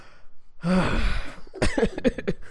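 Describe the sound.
A deep breath drawn in the middle of talk: a long, breathy, partly voiced sigh lasting about a second, followed by several short breathy bursts.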